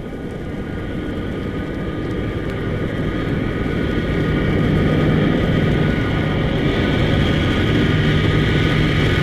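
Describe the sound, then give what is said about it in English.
A steady, low airplane engine drone from an aircraft landing and approaching the runway, with a broad rumble that holds throughout and grows slightly louder in the second half. “Is landing now, approaching the runway.”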